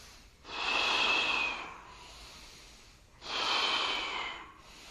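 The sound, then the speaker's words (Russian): Forceful breathing during a kriya breathing exercise: two loud, rushing breaths, each lasting over a second, separated by quieter airflow. “Мощнее вдох.”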